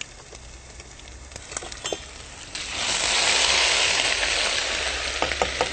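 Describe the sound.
Chilies and ground ginger sizzling as spices hit a hot pan: a light, sparse crackle at first, then a loud, steady hissing sizzle that swells and holds to the end.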